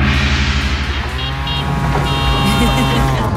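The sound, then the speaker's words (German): A tuk-tuk engine runs with a loud, steady, throbbing low rumble and a buzzy drone on top, unbroken from start to finish. “Wie könnte so ein Tuk-Tuk klingen? Wahrscheinlich so.”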